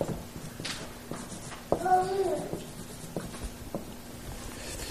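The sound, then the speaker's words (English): Writing on a board: soft taps and scratchy strokes, with one brief voiced sound partway through, over a low steady hum. “And especially in early Buddhism, this Dharma, D-H-A-R-M-A, let me write that on the board too.”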